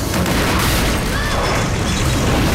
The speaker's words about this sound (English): A huge explosion rips through the side of the house, sending a bike spinning into space.